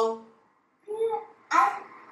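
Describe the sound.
A young child with a cochlear implant babbles during early speech practice after the implant is switched on, giving three short voiced sounds separated by pauses, the last one brighter and louder.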